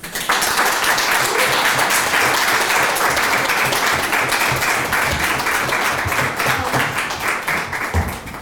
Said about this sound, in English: I'd like us to kind of put our hands together rapturously for Maza.